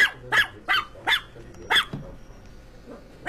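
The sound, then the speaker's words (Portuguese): A Pinscher dog barking: a few sharp, high-pitched yaps in an uneven rhythm, fairly faint, with quieter yelps trailing off at the end. “Nossa, que cachorro é esse? É o Pincher. Cachorro de madame.”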